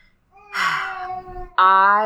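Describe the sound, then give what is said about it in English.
A baby babbling in the background makes two drawn-out, high-pitched voiced coos, the second louder and more tonal. “my son is he's babbling quite a bit, so if you hear him in the background, you're fine.”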